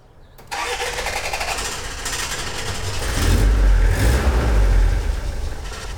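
An old car engine catches suddenly and starts, then runs with a rough, steady rumble that swells louder as it revs for a couple of seconds before easing back to a lower idle.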